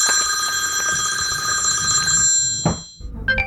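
A telephone ringtone from an incoming call by a home nurse to a man waiting at his computer sounds as a steady, bright electronic tone for nearly three seconds, then cuts off, leaving a few faint handling sounds.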